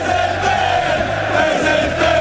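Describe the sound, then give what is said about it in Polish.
Football fans chanting together in the stadium stands: a loud, sustained crowd chant with steady droning tones, continuous for the whole stretch. “No to jak to kibice śpiewają na trybunach?”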